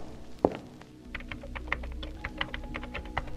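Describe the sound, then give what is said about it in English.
Keys are typed on a computer terminal keyboard in an attempt to unlock it. A heavier thunk comes first, then many quick, irregular clicks over a low, steady hum. “Is that a terminal I see? You'd be right. Quickly, see if you can unlock it.”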